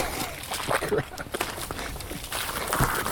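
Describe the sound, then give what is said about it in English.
Footsteps tiptoeing through waterlogged, partly submerged ground with a stick underfoot, in only somewhat waterproof shoes: a few soft, irregular steps across a steady noisy background. “I'll tiptoe. These are waterproof, sort of.”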